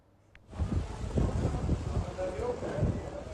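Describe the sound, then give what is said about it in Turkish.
Strong storm wind during a severe windstorm in Istanbul, strong enough to uproot trees: a heavy, gusting roar that buffets the microphone, rising abruptly after a brief quiet start and staying loud and turbulent. “Aşırı bir rüzgar var. Ağaçlar yerinden çıkacak sanki.”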